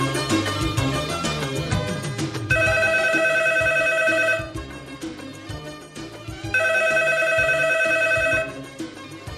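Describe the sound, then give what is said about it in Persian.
A telephone rings for an incoming call in two long, steady electronic ring bursts, each lasting about two seconds, over a busy background sound. “آمنوچهر زنگ زده، فکر کنم این شماره آمنوچهره.”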